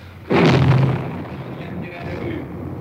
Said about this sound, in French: Il tire à la mitrailleuse, vous entendez les balles qui claquent contre le mur.